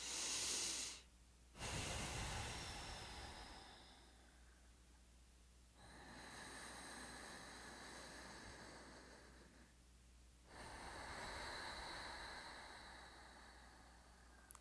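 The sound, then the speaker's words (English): Long, deep breaths in and out through the nose during a calm relaxation exercise, sitting or lying down: several slow, soft, airy hisses that swell and fade in an unhurried cycle, faint and alone. “close your eyes and start taking some nice, long, deep breaths.”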